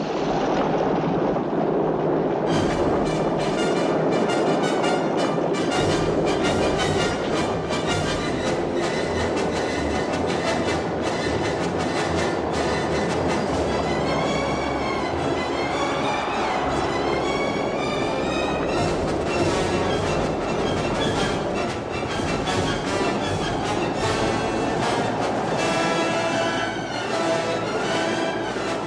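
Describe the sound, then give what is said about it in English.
Thundering horse hooves from a chariot race pound around a circuit, layered with chaotic orchestral action music written for a naval battle scene; a dense, loud, continuous wall of sound throughout, with no talking. “chaotic action music against the sound of these thundering hooves going around in a circle”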